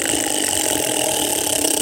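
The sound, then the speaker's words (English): A spinning prize wheel, its pocket recently oiled with WD-40, whirs with a rapid, dense stream of clicks that blur into a steady, loud rattling texture for the whole clip. “That's a good spin. Really good spin. Sounds like it's fixed, too. Man, it's going. I told you, I put some WD-40 on that pocket.”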